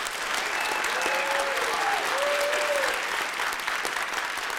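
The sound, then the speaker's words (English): Live audience applauding in a room at the X Center, University of Notre Dame, with dense, steady clapping that holds an even loudness for the whole stretch. “that restless hubbub you may hear in the background is because this room is full of restless biomass.”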